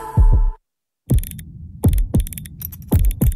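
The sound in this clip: A heartbeat sound effect pulses in an advert for a watchmaker in Uccle, Brussels: deep, loud thumps come in lub-dub pairs over a low hum, with a brief silent gap early on before the beat resumes steadily.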